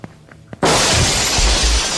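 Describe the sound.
Window glass shattering as someone leaps out through it: a sudden loud crash that keeps ringing and crackling with breaking shards afterward.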